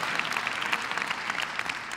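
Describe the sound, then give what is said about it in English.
Audience applause during a sermon: dense, steady clapping that fills the whole stretch at an even loudness, with no voices over it. “Oh, man. Some of y'all clapping.”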